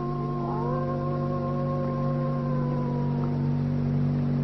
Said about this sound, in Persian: یوری، یوری گرگا زوزه می کشه.